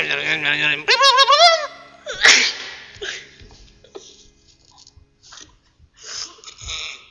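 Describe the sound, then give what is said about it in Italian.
Strange vocal noises, with a voice imitating warbling animal cries at the start, then a sharp sneeze-like burst, followed by scattered fainter clicks, breaths and mouth sounds. “anche se avete sentito dei rumori strani, dei versi animaleschi, degli starnuti e quant'altro, insomma, siete sempre su Radio Ro”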